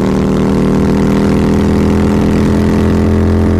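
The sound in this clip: A motorbike engine drones while being ridden. The low hum is loud and even, with constant harmonics and no change in pace, and no one talks.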